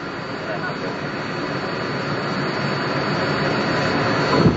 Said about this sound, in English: now any second we'll be feeling the touchdown, the vibration of the landing.